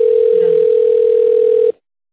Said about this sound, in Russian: позвонили в компанию CEMS Snap Group.